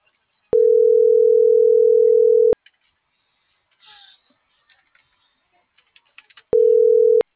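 Telephone ringback tone after dialing a call: a steady mid-pitched tone lasts about two seconds and stops. A gap with a few faint clicks and rustles follows, then a second identical tone begins.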